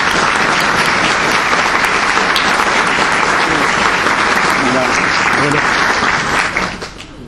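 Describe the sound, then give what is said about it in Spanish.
Loud audience applause for a harpist at a book presentation in a cultural center: a dense, continuous wash of clapping that holds steady for several seconds, then thins and fades out near the end. “Un aplauso para ella.”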